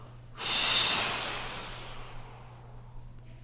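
A group takes one big deep breath together while lying down: a single loud, breathy rush starts suddenly, then slowly fades over about two seconds, with a steady low hum underneath.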